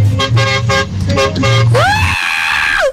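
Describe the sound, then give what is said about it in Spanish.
A big truck's horn, sounded with a pull cord, honks in a few short blasts and then one longer tone whose pitch bends upward, loud and with no talking. “Es que la mula tiene pito grande, mija.”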